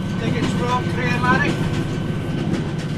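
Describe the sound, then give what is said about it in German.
Red Scottish Rail passenger train rolling out: a continuous low rumble with faint rattling and steady rolling noise throughout. “Um dorthin zu gelangen, besteige ich zunächst die rote Bahn der Scottish Rail.”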